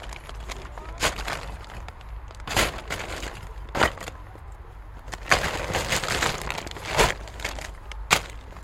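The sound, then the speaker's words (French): Shovels scrape and crunch through breeze-block rubble from a broken wall as it is loaded into bags, with irregular louder strikes and cracks over a continuous gritty rustle. “Là, on a cassé le mur. Et on est en train de mettre des gravats dans des sacs pour les amener à la déchetterie.”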